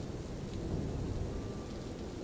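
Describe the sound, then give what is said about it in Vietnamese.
Heavy rain falls at night as a steady, dense hiss with a deep rumble underneath, continuous and unbroken, with no voices. “Trời về khuya, mưa vẫn giăng khắp lối.”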